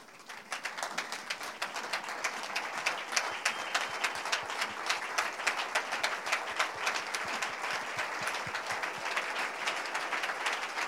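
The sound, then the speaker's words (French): A church audience applauds to acclaim the Lord: dense, steady clapping that continues at an even level from start to finish, with no voices standing out. “Veuillez vous lever, nous allons acclamer le Seigneur.”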